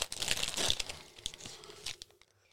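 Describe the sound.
A chunk of blue raspberry Rip Roll candy is torn off, producing faint crinkling and ripping sounds in a few bursts that fade into quiet.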